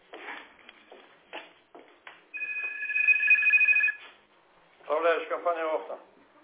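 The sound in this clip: A second telephone rings in parallel during a call, giving one sustained warbling two-tone ring of about a second and a half between stretches of people talking.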